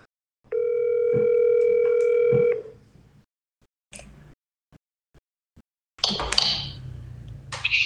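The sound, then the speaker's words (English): A telephone call tone sounds as a number is dialled, a steady electronic tone held for about two seconds, followed by a few faint taps and a short burst of rustling noise. “oh, calling the wrong person. I was calling my dad. Sorry, Dad. Let's get Clay on here.”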